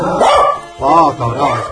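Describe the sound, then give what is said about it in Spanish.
A female dog barking, giving three loud, short, harmonic barks in quick succession. “¿Está el perro? ¿Esa es su perra?”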